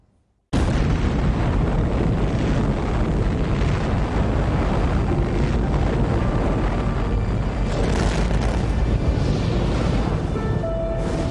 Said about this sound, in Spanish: Joe 1, la bomba soviética